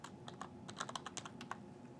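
Quiet typing on a computer keyboard while entering a username and password: many quick, light keystrokes in an irregular rhythm, with no voices.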